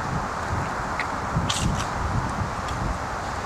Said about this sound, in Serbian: Ovde vetar duva poliva, ali kuli.